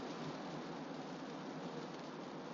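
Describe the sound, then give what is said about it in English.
Rain falls in a steady, even hiss that stays faint and unbroken throughout, with no voices. “it's raining”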